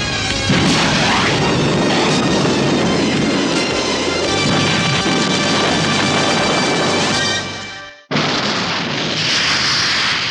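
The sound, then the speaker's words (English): A laser missile fires during a space battle as a loud, sustained explosive roar. The dense rumbling blast runs for about eight seconds, cuts out abruptly, then returns as a second burst of roaring noise. “Fire laser missile when ready. Laser missile ready now. Right. Fire missile.”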